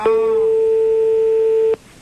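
A telephone call tone sounds while a radio game contestant is being called back: one loud, steady electronic tone that holds for under two seconds and then cuts off abruptly.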